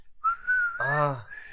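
A person whistles one sustained, fairly high note that rises slightly in pitch. A short voiced sound cuts in briefly near the middle, then the steady whistle carries on to the end.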